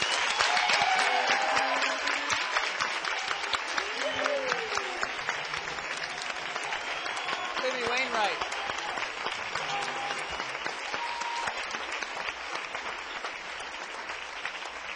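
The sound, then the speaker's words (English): Sustained, dense applause from an audience welcoming a performer onto a stage in Philadelphia, a steady loud wash of many hands clapping that holds at even strength for the whole stretch. “And also, the clapping is great,”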